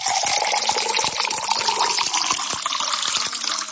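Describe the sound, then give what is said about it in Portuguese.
Water pours into a glass in a steady, continuous gush that holds at an even loudness for the whole few seconds, with a bright splashing, bubbling texture. “Vamos tomar uma aguinha agora? Aquela aguinha da pura, da boa, aqui no programa A Voz da Libertação, ó.”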